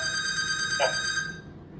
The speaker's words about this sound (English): I'm surprised the phone keeps ringing.